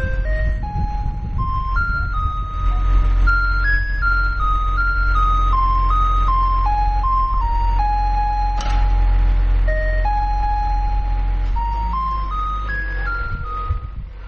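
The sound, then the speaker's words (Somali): Electronic jingle played by sanitation trucks touring the neighborhoods of Djibouti city. A loud, tinkly melody of single stepping notes repeats over a low steady rumble. “Kaasi aad maqleysaan waa dhawaaqa ay isticmaalaan baabuurta nadaafada ka shaqeeya gudaha caasimadda Djibouti, waxayna ku wareegaan xaafadaha kala duwan ee caasimadda Djibouti”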